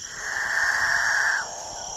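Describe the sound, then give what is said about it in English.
Male capuchin birds give a dawn chorus in the Guyanan jungle: a drawn-out, droning moan swells and holds for over a second, then drops away, over a constant thin, high insect-like whine. “A herd of nervous cattle? A distant motorboat? The civilizing roar of chainsaws? It's the dawn chorus of male capuchin birds”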